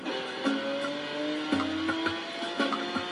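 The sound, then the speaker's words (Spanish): A car drifts in a video game, its engine holding a steady tonal whine that shifts pitch in steps, with brief bumps of tire noise through the run. “Voy a hacernos un derrapazo, tío.”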